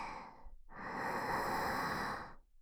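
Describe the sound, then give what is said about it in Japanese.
Deep breathing: a breath cuts off briefly, then one long, full breath swells and holds steady for about two seconds before tapering off, with no talking. “大きく息を吸って、”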